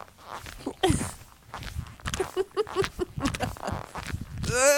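Footsteps in leather boots, each step giving a creaking, pitched squeak, with a quick run of evenly spaced squeaks in the middle and a drawn-out squeal rising in pitch at the end.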